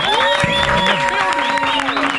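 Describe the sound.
Audience applause and cheering greet a guest joining a morning radio show, a dense continuous patter blended with sustained musical tones.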